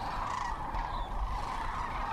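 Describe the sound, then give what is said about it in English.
A flock of sandhill cranes hunkered down at daybreak chatters continuously, many overlapping calls merging into a steady, moderately loud murmur with no pauses. “as far as I could see, there were a blanket of hunkered-down sandhill cranes. Oh, there was no mistaking their chatter of conversation.”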